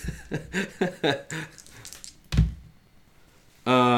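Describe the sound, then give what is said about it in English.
Dice thunk down once, rolled for an intelligence check in a tabletop roleplaying game. The single solid knock follows some soft vocal sounds, and a steady bright buzzing tone comes in near the end. “I rolled a 002. Oh, that's very good.”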